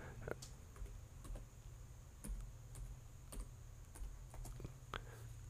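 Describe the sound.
Typing on a computer keyboard while writing something down, a faint run of many irregular, sharp keystroke clicks with uneven pauses between them.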